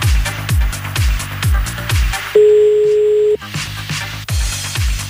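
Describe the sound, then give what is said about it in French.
A single steady telephone ring tone on the line, about a second long, sounds over rhythmic background music with repeated thumping beats. “On rappelle à Rouvreux. Allez hop, c'est parti.”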